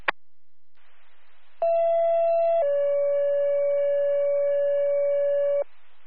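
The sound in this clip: Emergency dispatch paging tones for an ambulance service: a short steady tone, then a longer, slightly lower tone held for about three seconds, framed by faint radio hiss.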